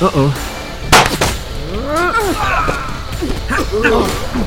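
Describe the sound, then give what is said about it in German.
A single sharp gunshot rings out during an audio-drama shootout at a trailer park. It is one loud, abrupt burst about a second in, and voices talk before and after it. “Jetzt erschieß ihn schon.”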